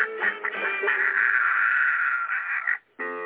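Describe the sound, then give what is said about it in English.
Ducks quacking in a dense, continuous run of nasal calls for nearly three seconds, then a short pause before another call begins. “Here they come. They know my voice. I love chickens. I love ducks.”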